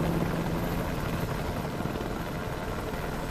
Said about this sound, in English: From the helicopter, Castel Gandolfo recedes in the distance. Now, the helicopter passes over the Roman Colosseum.